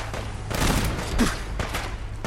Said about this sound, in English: Who's shooting me? I'm taking damage. I don't see anybody.